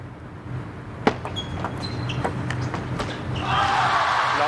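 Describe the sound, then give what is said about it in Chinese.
Light, sharp ball taps from a table tennis serve during a match, several crisp clicks spaced over a few seconds against a steady background hum. “雨果先来发球”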